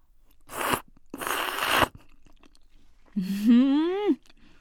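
Someone chews thick, firm Yoshida udon noodles, making two wet, noisy bursts of mastication, followed by a short voiced murmur that rises in pitch.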